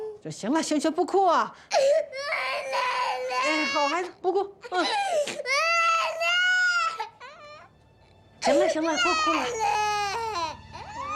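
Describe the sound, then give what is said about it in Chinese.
A baby cries in long, loud wailing bursts that rise and break off, with short gaps and a quieter stretch near the end before the crying resumes. “行，不哭啊！好孩子，不哭。行了，不哭了。不哭，不哭。”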